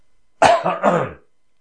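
A rough throat-clearing cough from a man, a short gravelly burst that breaks into two or three quick pulses within about a second, fairly loud and alone without talk.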